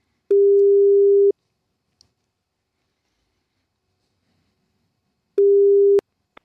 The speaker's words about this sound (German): diese 3 Leute werde ich jetzt mal versuchen zu erreichen und werde mal bei denen anrufen.